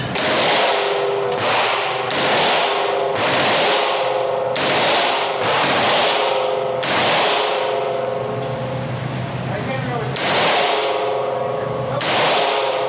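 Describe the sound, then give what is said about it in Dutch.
Gunshots fired in a series of sharp, loud cracks, each with a ringing, clanging tail. Many reports come at irregular gaps of about one to two seconds, with no talk between them. “Hij heeft vijf kogels eh, afgevuurd.”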